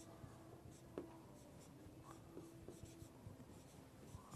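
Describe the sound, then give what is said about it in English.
Handwriting for an audience to read: faint scratching pen strokes, a run of short, uneven scrapes and drags, with no voices. “Hope everyone can read my bad writing. Now you know why I don't do this more often.”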